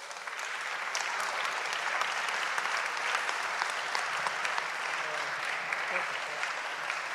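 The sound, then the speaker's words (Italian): Sustained applause from a crowd honouring all the athletes at a sports event, from the first to the last. Dense, even clapping holds steady for the whole stretch at moderate loudness. “let's resist till the end with an applause for all till from the first to the last of the players.”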